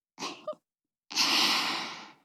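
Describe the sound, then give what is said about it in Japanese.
Heavy panting: two quick, short breaths, a brief silence, then one long, breathy exhale that slowly fades, with nothing else heard. “はあはあってすごい喘ぎ声ね。”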